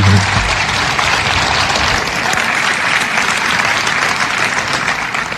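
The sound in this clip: Audience applause welcoming a speaker at an event in Southeast Wisconsin: loud, dense clapping holds steady from start to finish with no voices over it.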